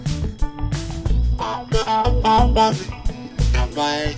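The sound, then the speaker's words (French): Short tonal, voice-like phrases with a distorted edge play back with reduced reverb, so the notes stop quickly into brief gaps instead of trailing off. “Mais là, il y a moins de réverb.”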